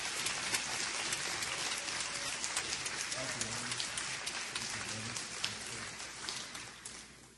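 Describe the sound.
Audience applause welcoming a pastor at a church service: dense, steady clapping fills the whole stretch, with voices mixed in.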